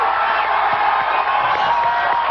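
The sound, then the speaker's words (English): A studio audience cheers and whoops while voting on the winner of a mock fight. The crowd noise is loud and sustained, with some talk mixed in. “We are now go to the studio audience that and declare a winner. Who believes that The Undertaker won this fight?”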